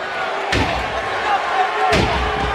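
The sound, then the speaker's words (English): A WWE SmackDown wrestling match: Kurt Angle drives Randy Orton into the ring mat with an Angle slam. Two heavy, booming slams land about a second and a half apart, with excited male commentary over the arena noise. “Oh, look at it! Angle slam!”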